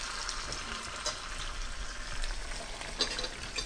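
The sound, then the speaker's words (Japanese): Sizzling as about a cup of prepared tomato sauce is added to hot oil in a pan for arrabbiata sauce, a continuous crackling hiss with a few sharper spatters. “作っておいたトマトソースを4分の1量、だいたい1カップ分ぐらい加えます。”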